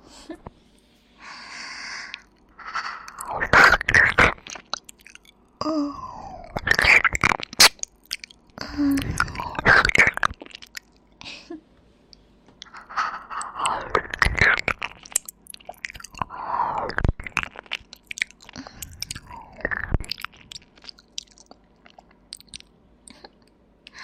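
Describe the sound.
Someone chews and crunches newly bought candy, giving many irregular crunchy bites and wet mouth sounds. Snorting breaths through the nose come between them, with no talking.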